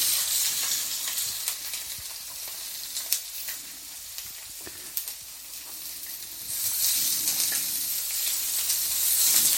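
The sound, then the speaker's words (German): Onions sweating in a pan while making a white chicken curry: a steady, bright sizzle with occasional soft clicks and scrapes, growing fuller and louder toward the end. “So, dann nehmen wir die Zwiebeln dazu. Die werden auch leicht golden angeschwitzt.”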